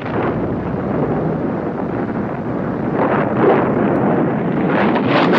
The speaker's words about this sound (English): Lights flash in the house windows and the rocket launches out of the roof. It shoots through the air, leaving sparks behind.